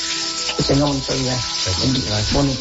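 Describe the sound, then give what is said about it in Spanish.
Bacon sizzles in a frying pan, a steady crackling hiss running beneath people talking. “Está guisando la señora. Acá huele como que está guisando este tocino, güey. Tocino para los huevitos estrellados.”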